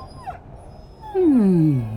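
A dog whimpers, giving a drawn-out, whining cry that slides down in pitch over steady low background noise, preceded by a faint short squeak.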